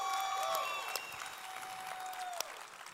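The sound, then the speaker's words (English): Audience applause welcoming a guest onto a stage, a dense, steady clapping that stays loud and eases off slightly toward the end. “Would you just give her a huge welcome just to be here?”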